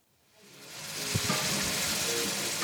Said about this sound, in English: At an old house in Lima, a volunteer cooks tomatoes and chopped onions in a giant pot as he makes a meal for dozens of people.